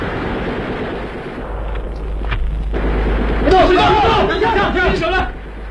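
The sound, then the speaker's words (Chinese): Gunfire in a radio drama, a dense, rumbling barrage of shots and booms that runs without a break. Voices cry out over the noise in the later part. “巴勒托杰的酥油火把和枪声，宣告的却是这批暴乱分子的全部覆灭”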